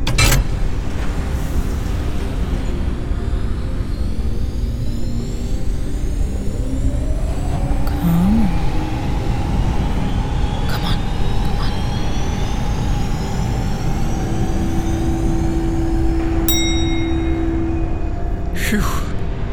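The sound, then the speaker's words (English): Main thruster ignition of a spacecraft engine: a loud, continuous low roar fills the whole stretch, with a tone that climbs partway through and then holds steady, plus a few brief hissing bursts. “Here's the fun one. Main thruster ignition.”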